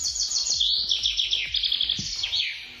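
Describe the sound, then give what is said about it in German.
Common chaffinch song: a quick run of bright, high chirping notes that flow together into busy twittering phrases, with a downward-sweeping flourish near the end, heard on its own. “Ein Buchfink ist das.”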